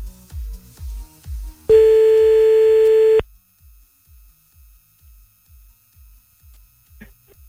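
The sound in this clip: A single telephone ringback tone sounds while a line is being called back: one steady, loud, buzzing hum lasting about a second and a half, set between soft, rhythmic low thumps before and after it.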